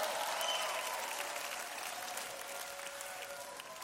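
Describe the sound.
A crowd applauds at a religious gathering, a steady, fairly faint wash of clapping that holds evenly from start to finish without a clear peak or break.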